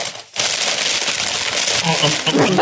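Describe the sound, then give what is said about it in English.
A candy wrapper being unwrapped: a loud, dense crinkling crackle that starts abruptly after a brief pause and runs continuously, with a voice faintly present toward the end. “I'm sorry. I'm just unwrapping my candy from the weekend.”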